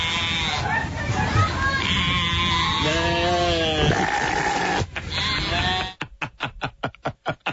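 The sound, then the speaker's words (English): Sheep bleat loudly, many wavering, quavering calls following one another, some lower-pitched than others. The sequence ends in a fast, stuttering run of short pulses. “My favorite sheep is the one just before the last one. The one, they're all tenors, these sheeps.”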